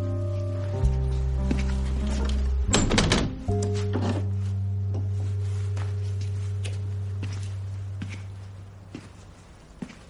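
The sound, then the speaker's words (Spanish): A window is closed with a short, solid thunk and a brief rattle of impacts, heard over a sustained low drone that lingers and slowly fades afterward. “cierra la ventana”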